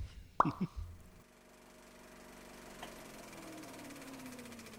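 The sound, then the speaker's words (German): The stop button on a recorder is pressed with a few short, sharp clicks near the start, then a faint, steady hum continues until the end. “Ich drücke jetzt auf Stopp.”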